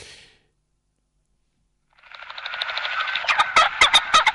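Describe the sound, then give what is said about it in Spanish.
A common pheasant, a grassland game bird, calling: harsh, raspy calls build up after a quiet gap, then break into a rapid run of loud, sharp pulses. “Otra ave de la pradera, el faisán.”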